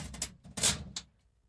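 A door being locked gives a few short, crisp metallic clicks and rattles in quick succession, the middle one loudest, then fading to quiet.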